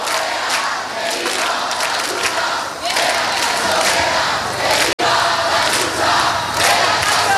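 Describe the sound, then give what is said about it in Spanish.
Crowd chanting in unison at Puerta del Sol in Madrid, a dense, loud mass of voices that holds steady throughout, with only a brief break near the middle. “Pues no pasarán, no pasarán, lo estáis escuchando.”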